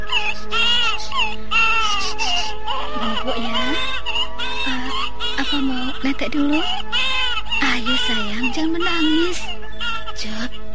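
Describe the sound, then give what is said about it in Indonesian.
A baby crying in a beggar's lodge in a forest, with loud, wavering high wails that rise and fall and run almost without a break for about eleven seconds. “Di pemondokan pengemis Ki Ageng Lindu terdengar tangis bayi.”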